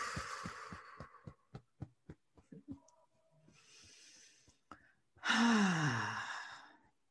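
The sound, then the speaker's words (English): A person draws a deep breath in and blows it out in a long, loud sigh-like exhale, preceded by a series of soft, rhythmic tapping thumps. “Take a deep breath. Blow it out.”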